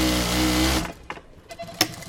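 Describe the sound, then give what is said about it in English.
Sewing machine stitching clothes in a clothing factory in Fall River, Massachusetts: a loud, steady mechanical whir that runs evenly and then stops abruptly, followed by a few faint clicks and knocks. “A real human being is sitting in front of a sewing machine making clothes.”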